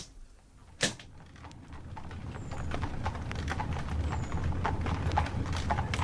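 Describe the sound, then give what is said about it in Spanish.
Hooves of a horse pulling a carriage away clip-clop in a steady, even rhythm with many strikes, growing slightly louder over time, after a single sharp crack near the start. “El carruaje se alejó de la casa de la hiedra.”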